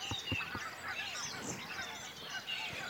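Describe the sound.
A flock of geese honking at a lake in the morning: many overlapping nasal honks and calls in a busy, irregular chorus, moderately loud throughout.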